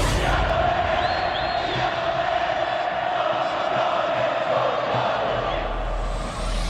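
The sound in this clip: Football crowd shouting and cheering goals, a dense, unbroken roar of many voices that holds steady and loud from start to finish.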